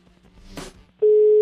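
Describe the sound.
Telephone ringing tone of a call waiting to be answered during a cash prize giveaway: a steady, loud, unbroken tone that begins suddenly after a short stretch of quieter background sound.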